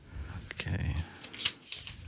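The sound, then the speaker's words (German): A folded paper question slip, drawn from a candy jar, crinkles and crackles as it is opened out, with a few sharp, dry snaps among the softer rustling. “Wir falten die Frage auf.”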